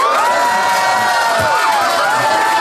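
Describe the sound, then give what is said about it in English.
An audience cheers loudly after being asked to applaud for a debate side, a dense, continuous wall of shouting and whooping voices at high volume. “But if you think John and Fanshawe made the best case, please applaud now.”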